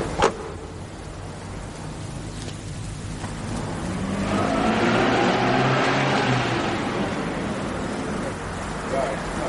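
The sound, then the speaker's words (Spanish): A car engine swells loudly in the middle and then eases off over steady street noise, as the car pulls away. “Ataun sube al asiento del copiloto de un coche mientras Jules se queda en la esquina de la calle vigilando.”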